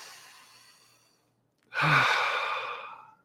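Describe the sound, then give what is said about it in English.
Deep breath taken by a person leading a Sunday gathering: a faint breath fades out, then after a short pause comes a loud, long, breathy sigh that slowly tapers off, with no talking. “everyone take a breath with me. I need another one. Let's do another one.”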